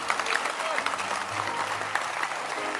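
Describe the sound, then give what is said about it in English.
An audience claps hands together in dense, steady applause with many overlapping claps, holding at an even loudness for the whole stretch, with a voice faintly audible underneath. “Can you clap your hands for shepherding?”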